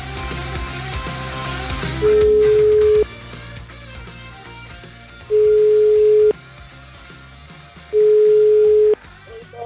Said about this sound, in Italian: Sentiamolo, va, sentiamolo, vediamo di pizzicarlo al telefono.